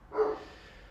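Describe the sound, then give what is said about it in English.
A dog lets out one short, muffled bark, faint and alone, fading into a quiet hiss. “this dog won't shut up”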